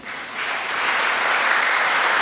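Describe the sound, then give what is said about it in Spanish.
An audience applauds during a religious service, the clapping swelling in loudness and holding as a dense, continuous wash. “Un aplauso a Jesús”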